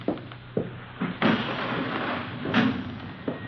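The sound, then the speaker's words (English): A window being opened to let in fresh air: a few hollow thumps and knocks, then a louder clunk followed by a sustained rush of noise, with no talk. “Let me open a window for you, sir. A little fresh air in here.”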